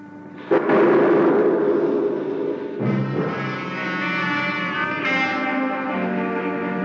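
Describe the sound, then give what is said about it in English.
A blasting explosion deep in a gold mine: a sudden loud burst swells into a long, reverberant, distorted rumble, with a second surge midway, all without speech. “Sounds like they're about ready to blast. Oh, great. So open your mouth and cover your eyes.”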